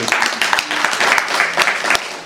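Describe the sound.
Audience applause for a group of honored guests, among them a senator from Eswatini: a dense, loud wash of many hands clapping steadily, with sharper individual claps standing out through the whole stretch.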